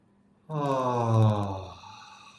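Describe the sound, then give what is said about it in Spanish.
People in a group breathing exercise exhale together on a long, voiced 'ah'. The sound is a sustained, fairly low tone lasting under two seconds. It swells slightly, then fades, with no other talk. “empezar con unas inhalaciones profundas y exhalar con un sonido de A.”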